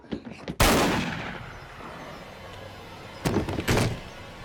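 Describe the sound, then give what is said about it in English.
A shotgun blast fired through a front door: soft knocks lead into one loud booming report with a long ringing decay, followed later by two shorter sharp bursts close together. “Josh is blasted through with shot from the barrel of the gun poked out through the front door”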